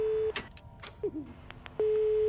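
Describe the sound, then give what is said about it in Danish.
A landline telephone line gives a steady low tone that cuts off, followed by a few clicks and short beeps, then the same tone resumes. The whole sequence is faint. “Der er gang i telefonerne igen.”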